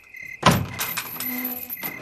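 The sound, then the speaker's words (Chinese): Door being opened: one sharp thunk, then about a second and a half of rattling and scraping noise at moderate loudness, with no speech over it. “来，开门。”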